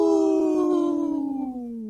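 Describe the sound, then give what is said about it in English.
A single sustained howl aired with a segment supporting wolf protection: a smooth, tonal cry that holds steady and then slides gradually lower in pitch toward its end, loud and alone with no talk. “That was a good howl.”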